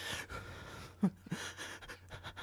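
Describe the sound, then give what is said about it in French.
Faint, breathy panting from someone out of breath after running: quick, irregular gasps, with a couple of sharper breaths standing out midway. “Je m'essouffle.”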